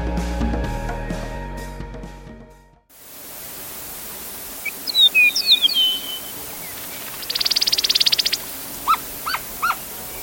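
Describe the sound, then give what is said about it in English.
Eastern Meadowlark song, recorded in 2012: after music fades out, clear high slurred whistles come, then a fast buzzy trill and a few short sharp notes, against a quiet hiss. “That's the sound of the Eastern Meadowlark”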